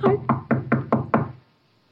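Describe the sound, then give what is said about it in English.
Six sharp, evenly spaced knocks sound on a door in a quick, steady rhythm and then stop, leaving silence. “Any minute now, a knock or a ring.”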